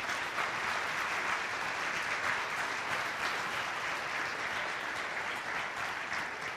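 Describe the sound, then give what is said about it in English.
Audience applause welcomes a speaker onto the stage: dense, even clapping from many hands that stays at a steady, full level throughout. “So if you guys would do me a good favor and welcome Dave as he comes on stage.”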